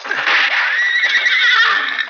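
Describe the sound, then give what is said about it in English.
A horse neighs after being hit by gunfire in a shootout: one loud, sustained whinny with a quavering, wavering pitch that lasts about two seconds, with no other sounds. “Hit one of the horses.”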